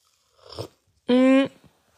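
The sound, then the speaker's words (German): A quick, quiet sip of toffee nut latte, followed by a short voiced, satisfied hum after a brief pause. “Ich trinke jetzt mal einen Schluck.”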